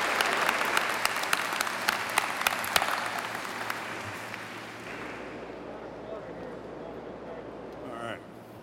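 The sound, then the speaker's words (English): Audience applause for the Hangovers performing group: dense clapping that thins out and fades over the first few seconds, leaving a low, steady murmur of crowd noise. “All right, let's have one more hand for the Hangovers as they go.”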